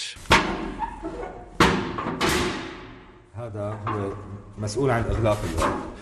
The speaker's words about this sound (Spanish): Hadi Harun, años después, este ruido sigue atormentándolo. Cuando abrían esta cerradura, dice, los presos se preparaban para horas de tortura.